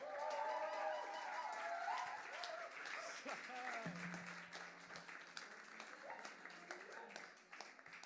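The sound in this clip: A concert audience applauds and cheers for the band, with voices whooping early on over the clapping, which then settles into quieter, thinning applause.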